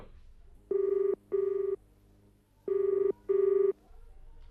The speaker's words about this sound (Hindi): देखो किसका फोन है